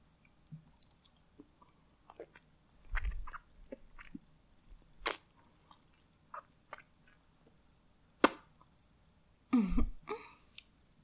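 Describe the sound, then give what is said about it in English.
Wet sucking and lip-smacking as fingers are sucked: scattered soft clicks and moist smacks, with a few louder wet bursts and quiet gaps between them. “Now, I need to make my fingers nice and wet, okay? I'm just going to suck them a little.”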